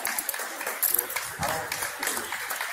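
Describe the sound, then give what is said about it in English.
People clapping during an outdoor street scene, uneven applause mixed with voices talking over it, at a moderate, fluctuating level. “And they're clapping.”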